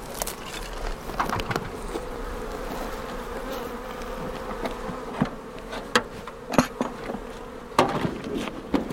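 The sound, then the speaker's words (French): Honeybees buzz around a small nucleus hive as it is moved, a dense, continuous hum with occasional sharp wooden knocks from the handling. “Je déplace un petit peu la ruchette, je la pose en arrière et je vais aller chercher la ruche vide pour la mettre à la place.”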